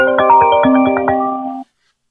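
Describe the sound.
An incoming-call ringtone sounds as a bright, electronic melody of quick successive notes over a steady held tone. It plays loudly for about one and a half seconds and then cuts off abruptly into silence.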